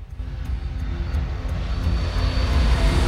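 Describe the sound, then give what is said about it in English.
Airliner flying low over Miami, a steady, broad engine roar with a deep rumble that swells slightly louder over about three seconds. “An airliner flies low over a sign that reads Miami.”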